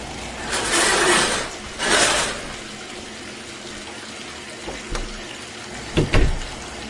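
Water runs from a shower in a steady hiss. A few louder rushing surges break through it, and brief squeaky knocks come near the end.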